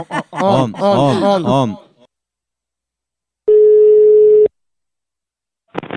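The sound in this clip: A telephone call ringing on the line: a single steady electronic ring tone at one fixed pitch lasts about a second after a stretch of talking, then stops, followed by silence.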